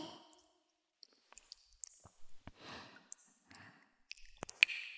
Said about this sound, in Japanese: まずは、ボディーソープを手に広げて、